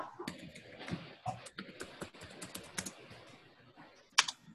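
Soft, irregular tapping of a computer keyboard as a web address is typed into a browser address bar. Many faint keystrokes arrive in uneven bursts, ending with a sharper click.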